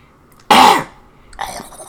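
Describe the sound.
A single sharp, loud cough bursts out, followed a moment later by a fainter, rougher throat sound.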